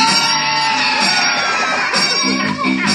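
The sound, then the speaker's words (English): Children scream loudly together at a secret word during a Christmas special, a sustained, shrill wall of shouting and whooping that stays loud nearly throughout and dips only briefly near the end. “For the rest of the day, whenever anyone says a secret word, scream real loud.”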